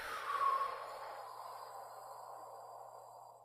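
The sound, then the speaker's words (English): A slow, deep breath out during a guided breathing exercise, heard as a soft, airy exhale that swells briefly and then trails off gently. The sound is faint, with no talking. “let's take a few deep breaths together. In. Out.”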